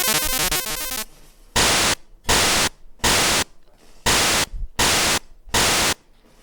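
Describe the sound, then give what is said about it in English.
The noise channel of a Game Boy sound generator plays harsh white-noise static: a second of dense, grainy noise, then six loud, even bursts separated by quiet gaps in a steady percussive rhythm. “And there's of course a noise channel, which you might have known from like the way that you would make like rhythms and percussions. Or noise, sound effects.”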